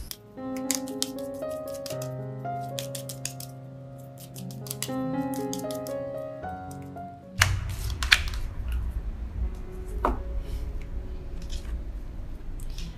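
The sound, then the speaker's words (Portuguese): Cards drawn from an oracle deck: after soft tonal music, the shuffling and handling brings a wash of papery rustle with a few crisp snaps and slaps. “E vou tirar duas cartas aqui desse oráculo das respostas dos anjos.”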